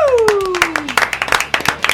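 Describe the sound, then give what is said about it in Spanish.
Audience applause greeting a band of guitarists, a bassist and a drummer just introduced on stage. A voice with a falling pitch opens it, then many quick, uneven hand claps build into a lively, loud patter. “¡Aplausos, operador!”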